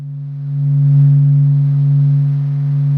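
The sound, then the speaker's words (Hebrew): A low, steady hum from the Sun, recorded by NASA and caused by constantly moving particles, rings as a loud drone with layered overtones, swelling slightly after the first half second and holding on evenly. “מה שאתם שומעים הוא צליל השמש, שהוקלט על ידי נאסא, וקולות הזמזום הנמוכים הללו נגרמים על ידי החלקיקים הנעים ללא הרף.”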